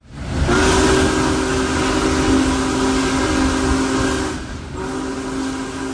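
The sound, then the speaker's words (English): A Big Boy steam locomotive, No. 4014, running from Sayre, Pennsylvania toward Owego, New York, makes a loud, continuous roar with a steady, chord-like whistle tone held over it. The tone breaks off briefly near the end and then sounds again. “The big boy locomotive continued its march toward northeast Pennsylvania today with a trip from Sayre, Pennsylvania to Owego and Binghamton in New York.”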